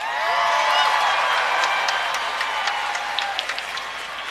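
A large crowd applauds and cheers as the mayor of New York City is welcomed, a loud, dense wash of clapping and crowd noise that eases slightly toward the end.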